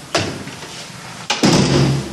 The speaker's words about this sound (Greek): Αυτή είναι η επισκευασμένη πόρτα.